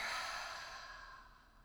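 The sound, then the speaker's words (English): A long breathy exhale through the mouth during a guided breathing exercise, a single soft rushing breath that starts strongest and slowly fades over its length. “Exhale through the mouth. Let anything go that's not serving you.”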